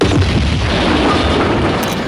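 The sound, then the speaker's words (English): A bomb blasts out of a car at a McDonald's with a loud, sustained roaring rumble of broad, dense noise. It holds at steady force throughout and eases only slightly toward the end. “Jimmy takes a photo right as the bomb shoots out of the car at the McDonald's. Jimmy's bike breaks from the intensity of the bomb.”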